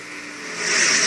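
Race cars roar around a racetrack during the final lap of a regular-season closing race, a continuous engine drone that swells louder toward the end.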